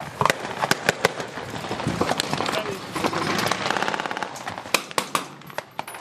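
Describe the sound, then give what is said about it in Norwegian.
Gunfire at a large NATO military exercise in Poland, with many sharp cracks coming singly and in quick bursts at irregular intervals. A continuous rumbling noise fills the middle stretch. “Det skytes i Polen. En kjempestor Nato-øvelse har pågått den siste tiden.”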